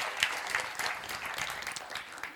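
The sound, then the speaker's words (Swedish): Congregational applause during a church service: a short burst of steady, moderately loud hand-clapping from a group, lasting about two seconds. “Ja, ge Herren en applåd för det.”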